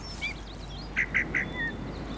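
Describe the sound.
A small bird chirps while perched in a tree. It gives a few short, high chirps, with a quick run of three in the middle, over a soft steady hiss.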